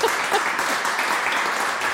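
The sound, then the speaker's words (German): Audience applause at a live talk evening in Berlin: a steady, dense patter of many hands clapping at an even level for the whole clip, with no voices over it. “Sie können gerne noch mal klatschen.”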